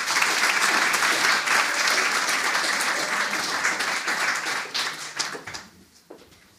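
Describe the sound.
Audience applause welcoming a translator and poet at an evening literary event at the Lighthouse: loud, dense clapping that holds steady for several seconds, then thins into a few scattered claps and fades out.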